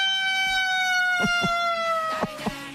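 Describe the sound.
A voice imitates a fire engine siren with a long, sustained high wail that slides slowly downward in pitch. A few faint clicks sound near the end.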